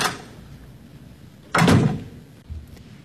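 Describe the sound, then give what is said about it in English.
A back door opening and closing: a loud, heavy thump followed by a softer knock, with quiet movement sounds in between and no voices. “I'll use the back door. Good night.”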